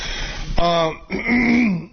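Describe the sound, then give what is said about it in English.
A person clears their throat: a short, rough burst, then a stretch of voiced, gravelly rasping that fades out. “Let me turn off the mic and finish clearing my damn throat.”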